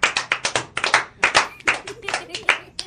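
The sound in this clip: Applause from a small group on a children's radio show: many sharp, uneven hand claps in quick succession, bright and close, continuing for about three seconds.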